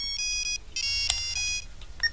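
A telephone rings with an electronic ringtone in a few high-pitched tonal bursts separated by short gaps, each burst made of bright, stacked beeping tones.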